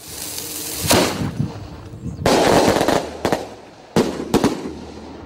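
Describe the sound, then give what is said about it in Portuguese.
Firecrackers explode in the street in several sharp, loud cracks, with one longer crackling burst and a quick pair of blasts near the end, separated by brief quieter gaps. “A próxima vez que você mandar bomba, é, estouro de bomba de artifício aqui, ó, 8067, eu vou chamar a polícia.”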